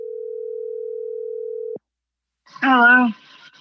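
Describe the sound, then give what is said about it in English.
A steady, loud telephone dial tone heard when placing a call holds for nearly two seconds and cuts off abruptly; after a short silence a person speaks briefly. “Maggie and I decided to call her quite recently to find out how she was doing.”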